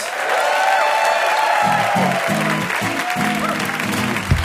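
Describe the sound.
Audience applause and cheering for the band They Might Be Giants at the close of a quiz show, a dense, steady clapping wash that holds throughout with a voice heard over it.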